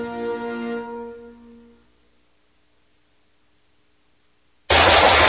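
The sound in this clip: A single loud rifle shot bursts in abruptly after a fading tonal chord gives way to near silence.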